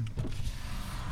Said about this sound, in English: True, that's the sound of the highway.